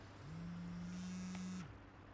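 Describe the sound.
A mobile phone buzzes with one sustained low drone lasting about a second and a half before cutting off, faint and alone with no talk.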